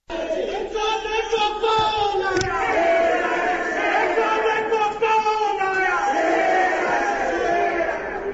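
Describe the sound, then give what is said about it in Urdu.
Muslim League workers chant slogans from the assembly galleries after a chief minister is elected. Many loud voices shout rhythmic chants together, with a sustained roar of crowd noise underneath that carries through the whole stretch. “ان کے وزیر اعلیٰ منتخب ہونے کے اعلان کے ساتھ ہی ایوان کے گیلریوں میں موجود مسلم لیگ کے کارکنوں نے نعرے بھی لگائے۔”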